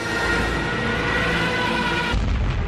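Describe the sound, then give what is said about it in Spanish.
A bomb falling, evoking the Spanish Civil War: a dense, loud, continuous roaring rumble that shifts abruptly in character near the end. “Este sonido, el de una bomba cayendo, este terrible sonido, dejó de escucharse hace hoy 80 años en España”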